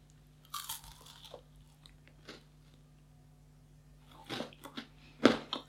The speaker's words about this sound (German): der kennt das hier, ist ein Raffaello. Und ich beiß da jetzt mal rein.